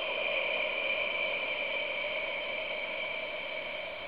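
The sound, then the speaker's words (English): A forceful, emphasized exhale: a steady, breathy rush of air held evenly for about four seconds, heard alone with no talk. “And you do it with an exhale breath. And you just amplify it or put a little bit of an emphasis on it so it sounds similar to something”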